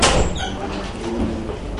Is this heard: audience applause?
no